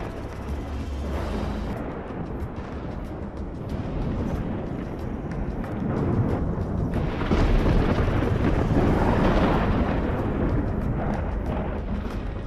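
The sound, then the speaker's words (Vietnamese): Deep, continuous rumbling thunder from a dark sky as eight bolts of lightning strike, a dense roar that swells louder past the middle and holds heavy to the end, with no voices. “Những tiếng sấm rền đến đáng sợ đùng đùng vang lên, muốn xé toạc không gian yên tĩnh.”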